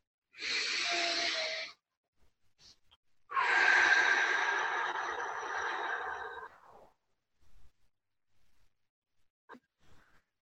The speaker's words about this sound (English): taking a deep breath together.